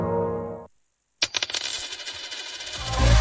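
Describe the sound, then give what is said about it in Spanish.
A euro coin drops with a sharp metallic clink after a moment of silence, then rings and rattles steadily for about two seconds as it settles. “¿Lo oyes? Es un euro que cunde.”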